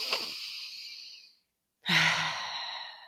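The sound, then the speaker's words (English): A deep breath taken during a calming self-care breathing exercise: a long airy inhale, a short silent pause, then a fuller, sighing exhale that trails off slowly. “It never ceases to amaze me how even just taking a deep breath, we're going to do one together.”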